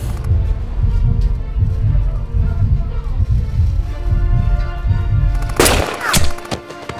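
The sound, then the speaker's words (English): A rifle gunshot gives a sharp, loud crack near the end, after several seconds of low, rumbling noise. “Shoot him, damn it.”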